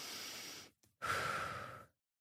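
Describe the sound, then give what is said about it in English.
A deep breath, heard as two long airy rushes of breath separated by a short pause and a tiny click, with no talking. “At the bottom, he takes a deep breath.”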